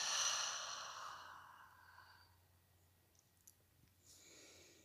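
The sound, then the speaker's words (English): A deep exhale through an open mouth makes a soft, breathy rush that fades away over about two seconds and leaves near silence. “Open the mouth, exhale, fully letting go.”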